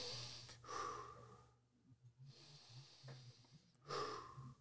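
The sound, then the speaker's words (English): Deep, slow breaths drawn in and pushed out, a couple of long airy inhales and exhales, soft and faint, with no talking over them. “Let's take 10 right. deep breaths in and out.”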